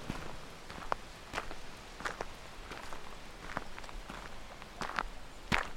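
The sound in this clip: Footsteps walking through a garden dell among very large trees in Wales in winter: faint, irregular soft steps continuing throughout, with no voices.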